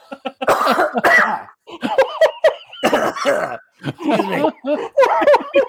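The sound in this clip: Harsh, choking coughs and throat-clearing from someone with a bone stuck in the throat come as a string of irregular, voiced bursts with short gaps between them.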